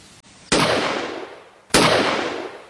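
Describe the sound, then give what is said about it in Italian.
Two loud pistol shots fired at the edge of a wood, each a sharp crack with a long fading tail, spaced just over a second apart. “e sparò su Silvia e Tamara. Un colpo ciascuna.”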